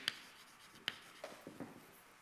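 Someone writes a mathematical factor on a board, making a few faint taps and short scraping strokes spaced apart.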